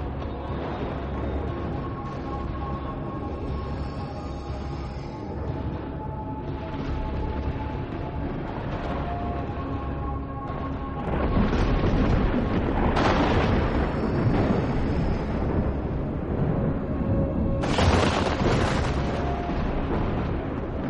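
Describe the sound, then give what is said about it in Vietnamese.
Rolling thunder in a stormy sky: a deep, loud rumble that carries on without a break, swells midway and is broken by two sharper cracking bursts toward the end. “Sấm sét hết đợt này lại đến đợt khác liên miên không ngớt.”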